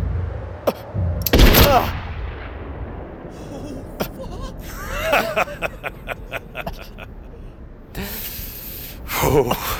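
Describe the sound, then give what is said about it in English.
Gunshots ring out: one heavy, loud blast near the start, then a series of shorter, sharp cracks and rattling bursts, and another loud burst at the end over a low background. “Getting shot in a vest still hurts a hell of a lot, don't it, son? Worse than a kick with a steel-toed boot. I heard the shot, but didn't feel it at first.”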